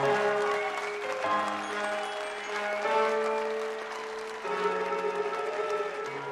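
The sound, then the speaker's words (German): Theatre audience applause for a stage magician's show, heard as a dense patter of clapping blended with sustained musical chords that shift in steps a few times. “Und darum Applaus für Monsieur Voland!”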